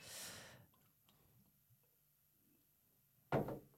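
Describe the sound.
Bottle of Level Blond 0.0 alcohol-free beer being opened: mostly quiet handling, then a short, sharp hissing burst near the end.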